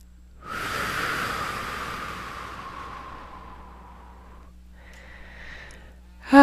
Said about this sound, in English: Nice deep breath.